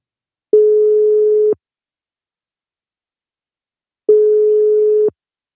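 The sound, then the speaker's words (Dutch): A telephone ringback tone sounds while a call is being placed: two steady, mid-pitched one-second tones, separated by a long silence, loud and alone. “Voor de ingestuurde vragen gaan we bellen met Richard Haak.”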